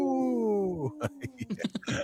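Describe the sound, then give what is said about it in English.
A person imitates a wolf howl with a single short, wavering wail that falls in pitch. Choppy talk follows right after. “this portion of the show wants to make me howl like a wolf. Howl.”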